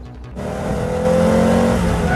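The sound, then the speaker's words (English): Tires squeal as a car swerves to miss an oncoming car. A loud, sustained engine roar is overlaid with high, steady squealing tones, and there is no speech. “swerves to miss a car coming the other way”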